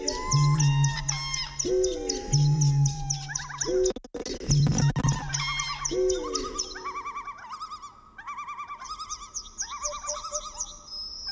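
Eurasian reed warbler song, lightly edited into a rhythmic pattern: loud repeated chirps, whistles and trills fall into regular looping phrases over low pulsing notes, with a brief burst of harsh noise in the middle.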